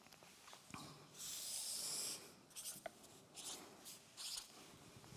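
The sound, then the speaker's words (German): Marker strokes across flipchart paper: a long scratchy stroke followed by a few shorter rubbing strokes, all quiet and dry, with no talking. “Ich habe letztes Mal eine Linie gezeichnet, hier auf dem Flipchart. Ich mache das nochmal ganz kurz.”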